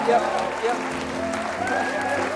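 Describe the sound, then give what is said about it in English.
Audience clapping resumes, a moderate steady patter of many hands running beneath a talking voice throughout. “Now, yeah, start clapping again. This is fantastic.”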